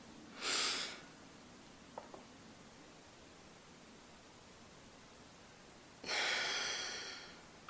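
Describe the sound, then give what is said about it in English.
A slow, deep breath in a morning breathing exercise: a short audible inhale, a long quiet pause while the breath is held, then a longer breathy exhale over a steady low hiss. “when I first wake up, before I even open my eyes, I take 8 deep breaths where I'm holding my breath for the count of 8 at the top. So it looks like this.”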